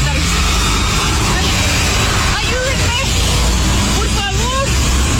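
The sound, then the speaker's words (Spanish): Mexican army trucks pass by with a loud, continuous roar of engines and road noise, while a woman's voice calls out over the rumble. “A camiones del ejército mexicano que estaban pasando en ese momento.”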